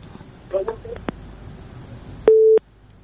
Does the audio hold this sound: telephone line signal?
yes